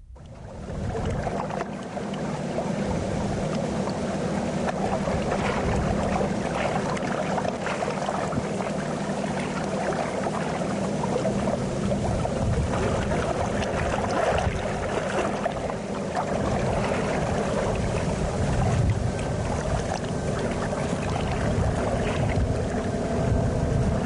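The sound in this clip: Waves raised by a boat speeding along the Rhône wash up onto sand while wind buffets the microphone, making a steady, broad rushing roar with low rumbling gusts that continues without a break.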